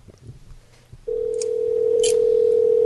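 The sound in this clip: A telephone dial tone, heard while setting up a prank call to a Georgia number, cuts in after a second of low background noise and holds as a steady, unbroken mid-pitched hum, with a couple of faint clicks over it.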